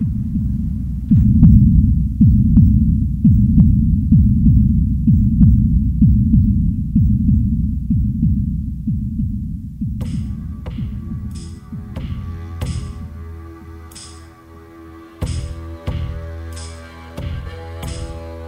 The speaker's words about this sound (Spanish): ¡Aquí es el latido de su implacable corazón!